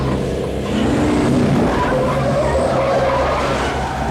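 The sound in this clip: A car accelerating hard with skidding tires, a continuous screech of rubber over a roaring engine for several seconds, loud and steady throughout.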